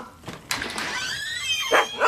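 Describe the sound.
A dog barks at arriving visitors, giving a few loud, strained barks and yelps with no voices over them.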